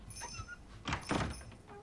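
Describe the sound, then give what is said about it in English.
A bedroom door is pulled shut, giving a couple of soft, muffled thuds close together. They are quiet and sit over a faint background hiss. “He watches as his parents turn out Sarah's light and close her door.”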